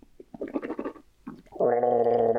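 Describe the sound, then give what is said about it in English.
A gargling noise, not made by a mouth, comes as a few short bubbly gurgles, then a sustained buzzy gargle that holds to the end. “That's not his mouth making that gargling noise.”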